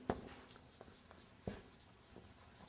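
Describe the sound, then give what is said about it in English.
Writing by hand, heard as a few faint, short scratchy strokes spread over a couple of seconds, with no voices. “I wrote down, but I will write down again, brothers.”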